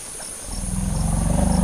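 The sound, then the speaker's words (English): A female elephant's low rumble while a male checks her out: a deep, loud, pulsing drone that starts abruptly after a short quiet moment and holds steady to the end. “Elephants often do that when a female's being checked out by a male. They do this low rumble.”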